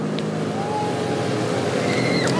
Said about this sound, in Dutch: En nu gaat het volledige peloton ons voorbij.